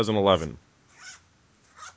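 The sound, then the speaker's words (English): A laptop case is zipped up in two short, raspy strokes after a brief burst of talk. “I'm taking my pants up or zipping up a laptop case. Okay. That is the longest zipper if I was taking my pants off.”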